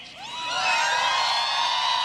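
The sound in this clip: A crowd at a rally cheers and whoops, the many voices swelling over the first second and then holding loud and continuous.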